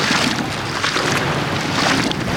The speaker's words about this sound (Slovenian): Slišimo tok reke Meduna v bližini mesta Pordenone.